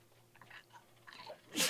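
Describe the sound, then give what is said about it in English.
A single sharp sneeze from a man bursts out at the very end after a short, quiet lead-up. It is loud and breathy, and no talk is heard over it. “I'm gonna sneeze. Sorry. Okay. I felt it coming.”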